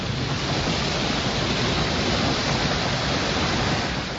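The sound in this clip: Roar of a large waterfall: dense, steady rushing noise at a constant loud level throughout, with no breaks and no voices.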